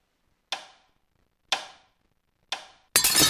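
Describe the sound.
Sound effect of a watch being smashed: three sharp, evenly spaced ticks about a second apart, then a sudden loud crash of breaking glass that carries on to the end.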